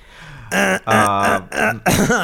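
Loud, forceful throat clearing from someone who feels something stuck in the throat: four harsh, voiced bursts in quick succession, with short gaps between them.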